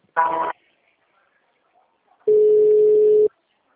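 Telephone line tones sound while a call is being transferred: a short buzzy burst, a pause, then one longer, steady, mid-pitched tone of about a second.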